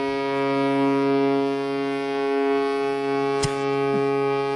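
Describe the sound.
A cruise ship horn blasts, deep, loud and sustained, rich in stacked harmonics. It holds steady for the full four and a half seconds with no break.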